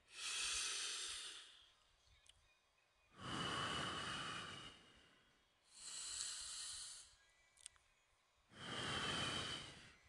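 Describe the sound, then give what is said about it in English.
Slow, deep breathing, four long airy breaths in an even rhythm with short quiet gaps between them, heard alone with no talk. “If you're rushing, sit down. Let's take a deep breath, okay?”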